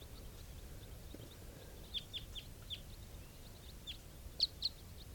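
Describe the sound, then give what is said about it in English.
A flock of about ten wild birds flying over gives faint, high, scattered chirps, a few brief calls over a low steady rumble. “Wild birds type 4s, a flock of about 10 flying over.”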